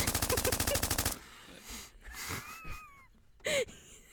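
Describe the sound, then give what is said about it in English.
Automatic gunfire rattles in a fast, loud burst as a house is shot up in a video game, followed by quieter scattered sounds and one more short, loud blast near the end. “What were you shoot? You were shooting the house. You ruined my fucking house.”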